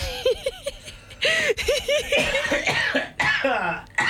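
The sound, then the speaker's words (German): A man coughing on purpose: many short, voiced coughing bursts, some with a clear pitch, come in quick irregular succession and are loud and close. “Ich huste jetzt schon.”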